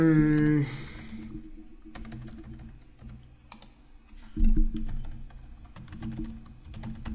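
Computer keyboard typing while a summary is written in OneNote: many quick, irregular key clicks over a low, steady hum.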